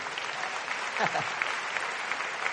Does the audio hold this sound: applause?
yes